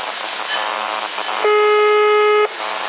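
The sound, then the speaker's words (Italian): A telephone ringback tone on an outgoing call: one steady, buzzy tone about a second long, louder than the low background hiss and hum, starting and stopping abruptly. “Ehi, sta squillando già, senti.”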